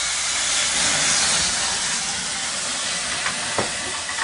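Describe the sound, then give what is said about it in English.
Sauce sizzles and splatters in a hot pan while gnocchi with spicy sausage and kale is cooked, giving a loud, continuous hiss with a couple of brief pops near the end. “Now we're building our sauce. Be careful, that may splatter just a little bit.”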